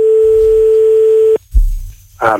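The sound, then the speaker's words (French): A steady, unbroken telephone tone sounds while a number is dialled live on a radio call-in show, holding one pitch for over a second before cutting off abruptly, followed by a low rumble and a voice starting at the end. “Bon, compose le numéro de téléphone en direct.”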